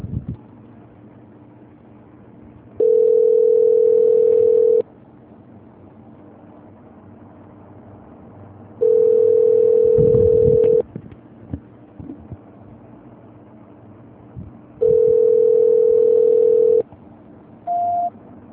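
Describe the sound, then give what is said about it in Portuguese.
A telephone call-transfer tone plays as three long, steady, mid-pitched beeps at regular intervals, then one short, higher beep, with faint line hiss between them. “Vou transferir novamente, tá? Tá bom. Transferência.”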